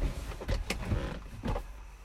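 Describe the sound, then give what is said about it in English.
A car seat being slid back, heard as a few short mechanical clunks and scraping rattles with no speech over them. “I was just moving the seat back so make more space for me to go down there.”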